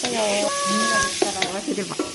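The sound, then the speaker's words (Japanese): Ingredients sizzle and crackle as they are stirred in a large pot, about 40–45 cm across, over a gas flame. A continuous frying hiss runs throughout, with scraping stir strokes in the second half. “しっかり混ぜないと、下に焦げつく感じ。”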